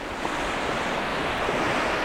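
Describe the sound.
Ocean waves washing on the South Carolina coast of the Atlantic: a continuous rushing surf with wind noise, steady and fairly loud throughout, with no talk.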